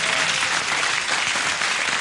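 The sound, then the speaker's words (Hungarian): Audience applause at a live stage comedy show: a dense, steady patter of many hands clapping, fairly loud and even throughout about two seconds, with no voices standing out. “Ugye egy kis tapsot el.”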